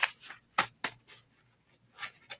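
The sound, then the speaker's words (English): Soft swishes and light slaps as cards are placed down during a collective tarot-style card reading. The sounds are faint, brushy and scattered over a few seconds, with no voices. “Let's go ahead and put some hot mess on it. Put my hot mess card on it.”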